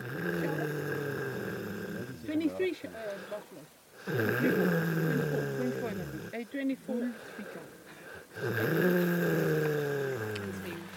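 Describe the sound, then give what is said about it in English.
A cheetah snores in loud, low, rasping breaths that rise and fall in a slow rhythm. Several rumbling snores follow one another, each separated by a short dip in volume. “You don't hear that very often. It's the sound of a snoring cheetah.”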